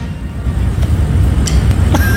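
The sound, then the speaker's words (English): A car arrives outside the White House with a low, steady rumble of engine and road noise and a few faint clicks near the end. “This is the car arriving. Right. So outside the White House, and now this is what happened. A door open.”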